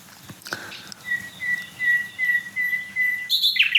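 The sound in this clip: Several small songbirds sing at once, smaller than a blackbird, in varied overlapping motifs. A sustained high whistled note runs through most of it, and brisker, brighter chirps burst in near the end.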